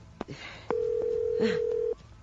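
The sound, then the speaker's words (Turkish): A telephone being dialed to call a police station: a few clicks, then a steady mid-pitched tone that holds for over a second, with further clicks during it, before cutting off. “Karakolu arayayım da haber vereyim.”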